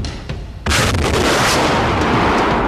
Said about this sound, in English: It fires a rocket carrying a 100-pound anchor which blasts into the bank and allows the CET to pull itself out using an 8-ton straight-pull winch.